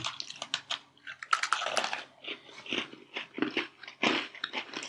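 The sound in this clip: Crunching and chewing of an Oreo cookie, with many short, crisp bites and grinding chews in an uneven rhythm and no talk.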